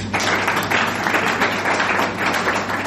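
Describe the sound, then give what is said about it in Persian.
Audience applause: a steady wash of many hands clapping at moderate loudness, with a low constant hum running underneath. “یه دست بزنید برای خودتون”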